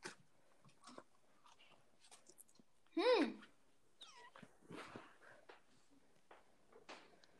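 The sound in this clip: Crunchy chewing of a cookie comes in scattered bites and smacking clicks, with a louder burst of short voiced sounds midway and quieter chewing noises around it.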